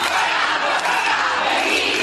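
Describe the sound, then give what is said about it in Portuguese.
A large crowd chants and shouts at a feminist strike rally in Bilbao. The voices form a loud, dense, unbroken roar that holds steady throughout. “Lo que están oyendo son los gritos de viva la huelga feminista, Gora.”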